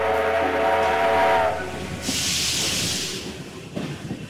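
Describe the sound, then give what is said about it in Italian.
An old steam train sounds a harmonic whistle for over a second, followed by a loud burst of hissing steam, then a quieter low rumble with a few chuffing pulses. “è un treno a vapore sul quale ti invito a salire”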